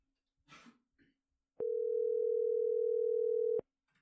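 Ringback tone on an outgoing telephone call: a single steady electronic tone, held for about two seconds, follows a few faint, brief sounds.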